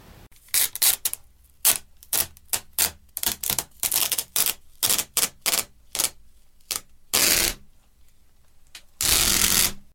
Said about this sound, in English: The sound you just heard was a recording of someone pulling sticky tape.